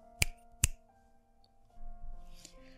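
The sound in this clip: Two crisp finger snaps, given as a signal, ring out in quick succession over a soft sustained musical tone, followed by a faint low rustle.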